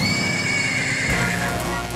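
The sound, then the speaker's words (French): A horse whinnies as its rider mounts, giving a drawn-out, harmonic neigh over a dense, continuous wash of sound that changes character about halfway through. “Hermod remonte à cheval, traverse le pont et prend lui aussi le chemin de Helheim”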